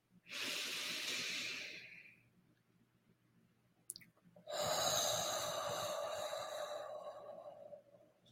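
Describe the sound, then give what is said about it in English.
Slow breathing with a long exhale: a shorter airy breath, then a pause, then a longer, steady hissing breath out that slowly fades. No talk. “So we always want to have that longer exhale.”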